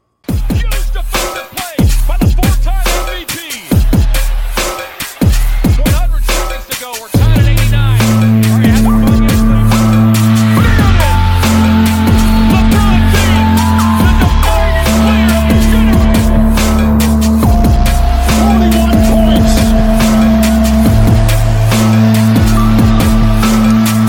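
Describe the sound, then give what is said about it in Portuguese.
Intro jingle of the Club Time basketball program on Canal Show: a few seconds of choppy, punchy hits, then loud, steady synth-like tones and a driving beat held to the end. “tá começando o Club Time. Seu programa de basquete no canal Show vai começar. Roda a vinheta aí.”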